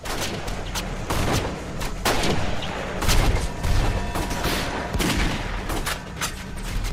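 Police gunfire erupts in a horror film scene as a fusillade of many rapid, loud shots with heavy booming low end that overlap almost continuously.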